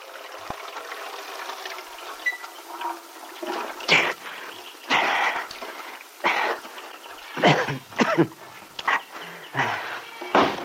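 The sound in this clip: Water splashing as a person washes and wets their head outdoors: irregular bursts of splashing and pouring, several of them, each short and fairly loud, separated by quieter pauses.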